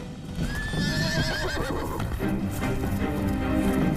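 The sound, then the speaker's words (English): A horse whinnies with a high, fluttering call that wavers over its first second, then steady clip-clopping hoofbeats follow as the horse, carrying several men, moves off amid gunfire. “The men clamber onto his horse.”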